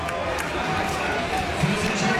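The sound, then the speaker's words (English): Home crowd at a Cronulla Sharks rugby league match cheering after a penalty, a steady broad roar of many voices that holds throughout and swells slightly near the end. “Yeah, the home crowd were very happy to receive that penalty. They're really getting behind their team, trying to give them a bit of a lift.”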